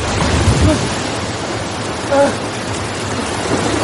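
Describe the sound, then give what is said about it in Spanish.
Rough sea surf crashing against rocks in a film scene makes a constant roaring wash of noise that swells briefly a couple of times. “Álvaro lucha contra la fuerza de la marejada.”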